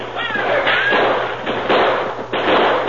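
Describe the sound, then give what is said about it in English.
Gunfire in a radio western shootout between outlaws and charging cowboys: a few sharp, loud bangs in quick succession over a continuous noisy background. “While the outlaws turned the fire on the hard-riding, fast-shooting cowpunchers that Ben Barton led down a downhill charge, there was another attack from the south.”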